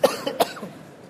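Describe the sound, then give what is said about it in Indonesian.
Coughing from a person speaking to a group: a few short, harsh coughs, two of them louder bursts, followed by a softer trailing breath, with no talk. “Tapi batuk-batuk nih.”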